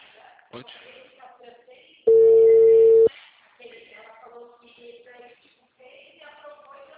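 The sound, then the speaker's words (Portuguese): A telephone disconnect tone follows a dropped call: a single loud, steady mid-pitched beep about a second long cuts in between stretches of speech. “Estava falando com você agora há pouco. A ligação caiu.”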